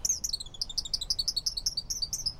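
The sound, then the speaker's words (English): Male song sparrows sing from a woody thicket along a riverbank, bright high trilling notes tumbling in quick repeated runs, lively and continuous over a faint low background. “From a woody thicket along the bank, male song sparrows belt out their chorus all day long.”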